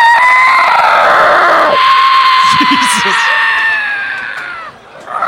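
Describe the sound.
A human voice imitating a pterodactyl, holding one long, piercing, strained shriek for several seconds before it thins out and fades near the end.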